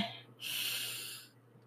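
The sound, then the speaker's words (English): A single slow, deep breath drawn in through the nose during a guided relaxation exercise, a soft, steady airy rush lasting about a second, heard alone and faint. “I want you to take a deep breath in”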